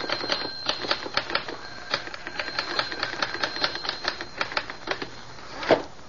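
A typewriter clacks out a radio script in quick, uneven keystrokes that run steadily for six seconds, with faint mechanical ringing between strikes and one louder, heavier strike near the end.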